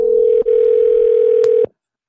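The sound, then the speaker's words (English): A telephone dial tone plays while a call back is placed: a loud, steady single-pitched tone with a brief click near the start, cut off by another click after about one and a half seconds, then silence. “Let's call him back.”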